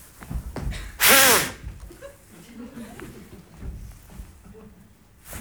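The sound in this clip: A short, loud puff of breath blown into a police breathalyzer at a roadside checkpoint, lasting under half a second, followed by quieter murmured talk.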